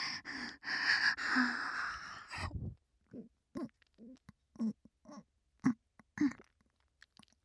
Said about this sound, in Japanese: 敏感なお耳優しく噛んであげる。